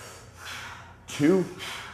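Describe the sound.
Forceful exhales during a guided breathing exercise: a few short, airy blasts of breath, one louder and partly voiced, with an instructor's voice nearby.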